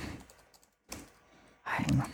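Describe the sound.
Typing a flirt text on a computer keyboard: clattering keystrokes in short bursts, with a brief pause before a louder flurry at the end.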